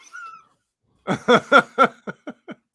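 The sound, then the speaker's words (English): Seven harmonic yelps from a dog: four longer, louder ones in quick rhythm, then three shorter, fainter yelps, after a brief thin tonal note. “Get the fuck out of here! Fucking dog.”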